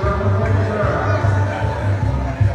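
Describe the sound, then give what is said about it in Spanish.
Baseball stadium crowd during a game in which Yucatán leads the Rieleros in the bottom of the sixth, a steady murmur of many voices over a low droning hum, with a commentator talking over it. “Aquí está el público animándose porque pues está su equipo ganando.”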